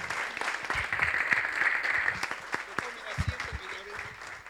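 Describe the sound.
Applause at a church assembly after a closing prayer, a dense, steady clatter of many hands that holds at an even level throughout, with voices mixed in.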